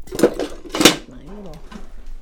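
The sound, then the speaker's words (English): A pastry blender rocks through shortening and flour in a silver mixing bowl, giving two bright metallic clinks against the bowl. A brief low voice follows the clinks. “She rocks a pastry blender back and forth to smoothly mix the Crisco with”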